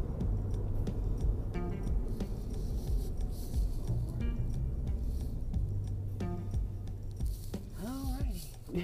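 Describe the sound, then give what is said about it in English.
A car being driven, heard from inside, gives a low, steady rumbling hum throughout, with a person talking over it and a few faint ticks and rubs. “I'm driving, by the way.”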